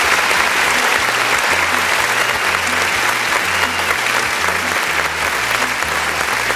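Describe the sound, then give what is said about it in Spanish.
Sustained audience applause for a birthday guest on a radio show: a dense, steady wash of clapping that holds evenly throughout, with low, stepped bass notes running underneath. “Un fuerte aplauso para ti.”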